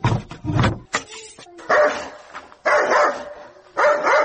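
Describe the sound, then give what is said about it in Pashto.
A dog barks in several loud, sharp bursts separated by short pauses. No voices are heard. “څه بیا ده سپی وګوره چې نه مو پرېږدي، چغه شه ورک شه.”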